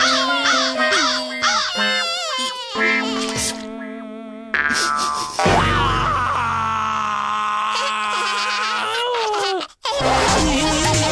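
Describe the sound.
A lost baby cries loudly and steadily, the wailing rising and wavering in pitch with brief catches for breath throughout.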